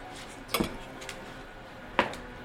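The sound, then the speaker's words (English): A d20 die is rolled during a tabletop game, giving two sharp, bright clicks about one and a half seconds apart, each with a brief rattling tail, over a quiet background. “Is it a d20? Just a d20 roll.”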